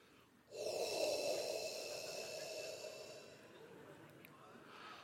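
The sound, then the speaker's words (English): A deliberate, loud, breathy exhale meant to sound ancient, sustained for about three seconds as an airy rushing hiss that gradually thins and fades, with no talk over it. “I want you to try to make your like most ancient, coolest sounding breath. And I'll do it first and then we'll do it together, okay?”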